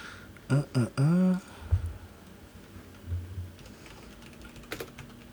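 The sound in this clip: Computer keyboard typing of a dice-roll command into a game chat: faint, irregular key clicks following a brief vocal sound at the start.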